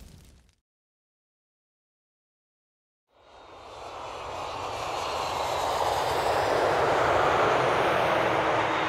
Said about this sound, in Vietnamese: Chuyến bay của Nhung hạ cánh muộn hơn dự kiến.